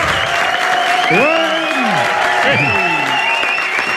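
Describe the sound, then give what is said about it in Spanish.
A studio audience applauds and cheers in a dense, continuous wash of clapping, with whoops and yells that swoop up and down over it throughout. “Ah, sí, ese entusiasmo del público que nos acompaña.”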